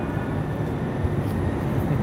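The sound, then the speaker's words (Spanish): Rumble of a metro train arriving at a station, a steady low roar of broad noise without distinct events or voices. “¿Corremos para coger este metro? ¡Vamos, vamos! ¡No, vamos al metro!”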